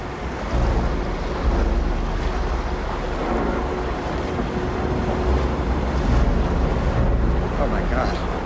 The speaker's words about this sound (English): Before reaching it, they must negotiate a narrow winding channel of swirling water.